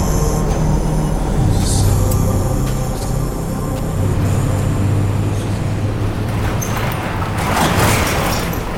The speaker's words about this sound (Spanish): El traqueteo hacía que me tambaleara muy fuerte y tenía que agarrarme a los hierros del filo del chasis para no caer.